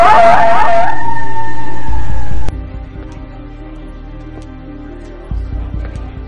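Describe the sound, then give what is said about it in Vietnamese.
A dog howling amid wind and rain: one loud, brief, wavering howl that settles into a steady held tone and cuts off abruptly, leaving a faint low hum. “Con chó vẫn tru lên giữa tiếng mưa gió xô bồ ào ạt.”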